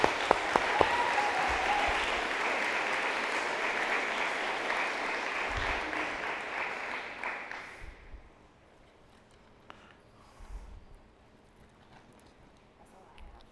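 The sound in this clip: Applause congratulates a group of third-grade children receiving Bibles: steady, dense clapping from many hands that fades out after about eight seconds, leaving a quieter room with a few faint thumps.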